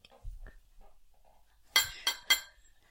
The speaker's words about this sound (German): Nehmt jetzt gern. bitte alle eure Schüsseln. Klunk, klunk.